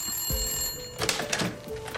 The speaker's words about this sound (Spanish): Desde la finca donde fue hecha la llamada del aniversario, llamaron a los Jaeger.